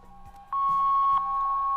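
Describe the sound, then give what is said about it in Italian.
An answering machine beep rings out as a single steady high electronic tone. It starts sharply partway in and holds at an even, fairly loud level to the end, after a fainter hum at the start. “Era questo il rumore, sì, della segreteria.”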